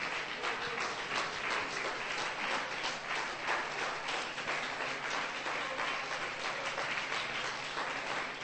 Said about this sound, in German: Can you give the Lord a hand praise as you're seated? Hände klatschen zum Herrn.